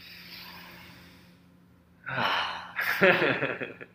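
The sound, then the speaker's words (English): A deep breath taken during breathwork: after a faint, near-silent stretch comes a breathy inhale, then a louder, rushing exhale. “Deep breath. Let's deep breath.”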